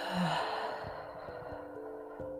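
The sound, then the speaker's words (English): A deep breath exhaled out through the mouth, a soft, airy sigh with a brief voiced start that fades into a long, gentle rush of breath, quiet and alone. “do deep breaths in through your nose. Let's do one right now. And out through your mouth.”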